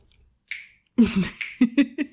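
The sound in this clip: Fingers snap as poetry snaps from an audience member, a few sharp, quick clicks in an irregular rhythm after a short pause.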